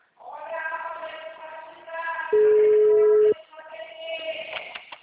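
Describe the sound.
A single steady telephone tone, about one second long and loud, sounds between stretches of talk as someone places a call to a busy number.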